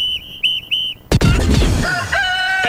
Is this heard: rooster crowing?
yes